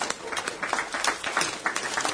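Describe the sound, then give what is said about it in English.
Applause from an audience honoring a longtime Foreign Service officer: dense, steady clapping that stays fairly faint throughout. “Charlie, we should all applaud Charlie for his contribution.”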